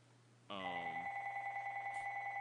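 A telephone rings with a steady electronic tone that starts partway through and continues unbroken to the end, moderately faint and alone, with no talk.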